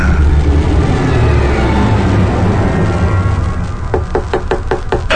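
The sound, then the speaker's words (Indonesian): Knocking on a door: a quick run of sharp raps near the end, heard over a steady, loud rumbling background noise. “ada yang mengetuk pintuku”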